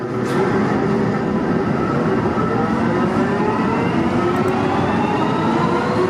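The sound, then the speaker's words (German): An underground train at a subway station in Bochum gives off a loud, continuous rumble, with a whining electric tone rising steadily in pitch as the train speeds up. No voices are heard. “Mitte September wird die U-Bahn-Haltestelle Bergbaumuseum in Bochum unter Denkmalschutz gestellt, als erste U-Bahn-Station in NRW überhaupt.”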